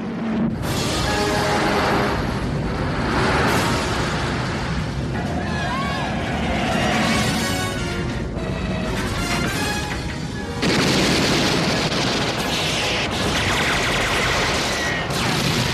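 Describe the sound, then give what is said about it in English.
A Batman movie trailer plays loudly, a dense wall of booming, crashing and gunfire-like bursts that runs almost without pause, dropping briefly just before eleven seconds and then surging back. “Let's play the trailer.”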